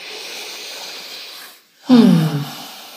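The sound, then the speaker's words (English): After a brief hush, one person draws a single deep, loud breath with a rasping, snorting rush of air that quickly trails away to a soft hiss. “Let's take a breath. I feel the need.”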